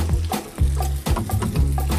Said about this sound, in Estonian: paneme siia veel natuke õli. Nii, siis võtame siit, võtame muna, ma ei tea, ma löön selle siia.